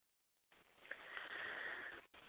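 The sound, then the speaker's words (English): A slow, deep breath drawn in through the nose, heard as a soft, airy hiss lasting about one and a half seconds, faint and with no other sound. “Take a deep breath right now. Actually, take a couple. Slow, deep breaths.”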